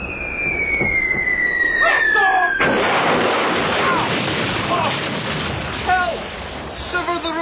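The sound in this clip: Cannons firing from a ship: a descending whistle gives way to a loud, heavy blast, followed by a dense, rumbling roar with crackling bursts that stays loud to the end.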